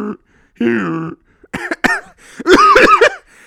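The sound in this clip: A voice imitates wheezy, asthmatic breathing likened to a dying donkey: several harsh, strained vocal bursts separated by short gaps, ending in a longer, louder rasping bray-like stretch.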